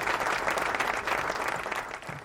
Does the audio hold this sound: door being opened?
no